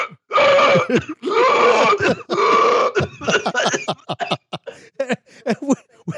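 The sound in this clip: A voice imitates a woman gasping for breath after falling off a grape-stomping platform. A few long, loud, strained groaning gasps are followed by many short, choppy, retching bursts.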